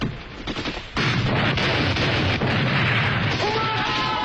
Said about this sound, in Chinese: 碉堡被炸毁，九连占领了主峰。